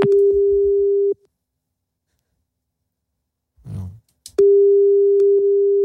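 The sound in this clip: Phone line tone on an unanswered call: a steady mid-pitched beep cuts off, a short breathy sound fills the gap, then the same tone returns and holds.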